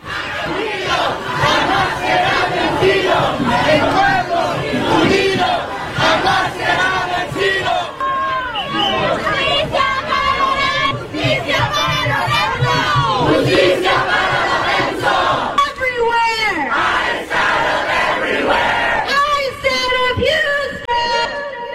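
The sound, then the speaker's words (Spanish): Protest crowd demanding justice over immigration enforcement, many voices chanting and shouting together in loud, rhythmic phrases that continue without a break, full and dense throughout. “Parte de los sonidos, parte de las protestas que se han desatado en estos momentos por estos actos de violencia.”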